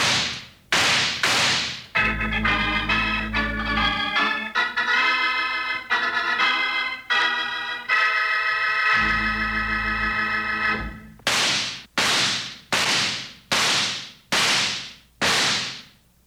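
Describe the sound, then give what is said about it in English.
Western-style gunshots: a few sharp, loud cracks open the passage, a swelling musical interlude follows, then a rapid series of further sharp shots ends it, each crack alone and forceful. “Hey, cowpunchers, those six shots are just to remind you”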